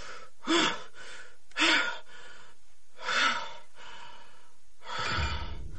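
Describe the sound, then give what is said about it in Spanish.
Ragged, gasping breathing from a man trapped in a cramped, stifling space as he tries to calm himself. Three sharp, noisy gasps come at uneven intervals, followed by a longer, rougher breath, with no talk. “respira entrecortadamente, tratando de tranquilizarse.”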